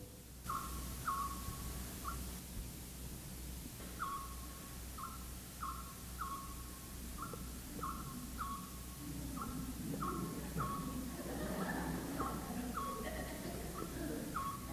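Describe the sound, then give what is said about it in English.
An owl, whose call is rendered as 'buposo', repeats short hoots in a steady rhythm, faint over a constant low hiss. “That's the cry of the owl.”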